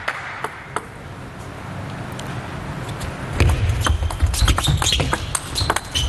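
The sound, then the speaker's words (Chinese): Table tennis rally in a match, with the ball returned off an unorthodox forehand stroke: many sharp, dry clicks of ball on bat and table, set against background noise that grows louder partway through. “好球，正手用一个有点非常规的击球动作啊，扇回来了一板”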